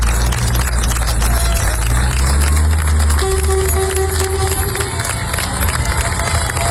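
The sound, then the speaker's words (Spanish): Townspeople of Niebla cheer farewell to departing military emergency firefighters after stabilising Andalusia's largest-ever forest fire, a loud, steady wash of crowd cheering and applause that continues without a break. “Este es el sonido de la despedida del pueblo de Niebla, los efectivos de la UME que han estado trabajando día y noche hasta dar por estabilizado el que ya es el mayor incendio forestal de la historia de Andalucía.”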